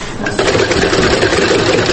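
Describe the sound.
Steady whirring drone of a sewing machine running at a sewing course for young people with disabilities. The mechanical hum starts slightly softer, then holds loud and even without pauses.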